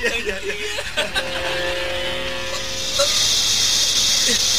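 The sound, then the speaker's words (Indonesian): Hissing of many venomous yellow snakes: a voice is heard first, then a loud, steady, airy hiss sets in and continues to the end. “Ular kuning banyak sekali. Emas itu berubah jadi ular. Berbahaya.”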